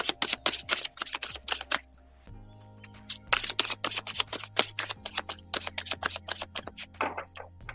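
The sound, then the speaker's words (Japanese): Oracle cards being shuffled and drawn from a deck, many quick crisp snaps and riffling clicks in irregular bursts, with a short pause partway through and a faint low hum underneath. “どういうこっちゃねんと思って、今もう一枚引かせていただきました。”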